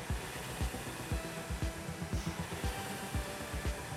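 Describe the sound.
Concept2 RowErg rowing machine flywheel whirring during easy, winding-down strokes: a steady airy rush with many repeating low thumps in an even rhythm.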